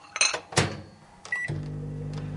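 A microwave oven is set to run for ten seconds on a low setting to melt something. A few clicks and a short beep come first, then a steady low hum runs on to the end.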